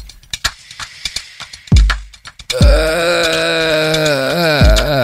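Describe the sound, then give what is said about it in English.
A voice makes a spooky haunted-house moan: after a few short clicks and a breathy swoop, a long, loud, wavering tone holds steady and dips in pitch near the end. “you just sounded like a haunted house.”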